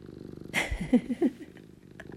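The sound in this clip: A cat purrs in a low, soft, steady rumble, broken midway by a short, louder flurry of brief sounds.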